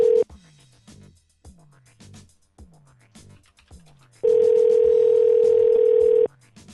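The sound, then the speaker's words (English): An unanswered telephone ring on the line: a brief tone, then a run of quieter repeated blips, then a loud, steady tone lasting about two seconds before it cuts off. “Not sure they're gonna pick up after all these rings.”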